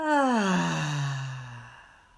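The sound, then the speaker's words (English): A long, voiced, sigh-like breath during a guided breathing exercise, falling in pitch as it trails off over about two seconds, with no talk over it. “And our third and final breath together. Breathe in and out.”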